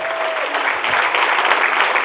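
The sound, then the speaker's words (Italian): Audience applause for a town mayor at a public gathering: a dense, steady wash of clapping at a moderate level, with a dull, muffled tone lacking crisp highs. “facendo un applauso al sindaco Giovanni Marrocco”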